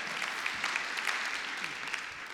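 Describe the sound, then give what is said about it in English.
Congregation clapping hands in praise during a church service. A soft, steady, dense clapping holds throughout with a few louder claps popping out. “Somebody clap your hands and just praise him one more time in his head.”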